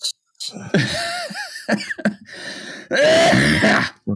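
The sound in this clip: Several harsh coughs and throat-clearing bursts, some short and some drawn out, come in uneven clusters separated by brief silences.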